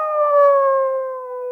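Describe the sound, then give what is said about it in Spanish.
A wolf lets out a fierce howl: one sustained, steady tone with clear harmonics that glides slightly downward over about a second and a half, loud and alone. “De improviso, Lobito se enderezó, lanzando un aullido feroz.”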